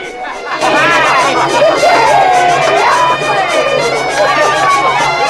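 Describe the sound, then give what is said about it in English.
Busy crowd chatter fills a smoky, candlelit tavern where musicians play and people dance and drink. Many overlapping voices blend into a loud, steady babble. “A small group of musicians play and people dance and drink in the candlelit eaves of the building.”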